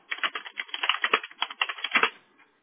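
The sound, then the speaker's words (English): Rapid typing on a computer keyboard: many quick, irregular key clicks in a steady burst that fades out at the end, with no talking. “sorry if you hear me like typing and talking to myself, okay.”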